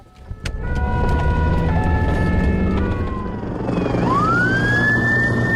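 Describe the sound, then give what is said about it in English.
Emergency sirens wail over a heavy engine rumble amid wildfires in southern France. Steady siren tones hold for several seconds, then one siren sweeps sharply upward in pitch near the end. Loud throughout. “The sound of wildfires, which are causing such destruction and disruption to lives across parts of southern France as well as Spain.”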